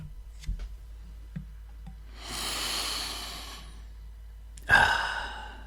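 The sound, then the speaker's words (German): A long, deep inhale over a cup of tea draws in its aroma as a soft, airy rush lasting over a second. A brief, louder breathy burst follows, with a few faint clicks before. “ich atme über der Teetasse tief ein, dann dufte ich schon mal den Teegeschmack.”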